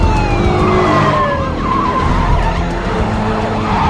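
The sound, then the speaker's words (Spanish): Cars drive into an aircraft hangar and come to a stop around a plane, giving a loud, continuous engine roar with screeching tires throughout. “Los coches se acercan.”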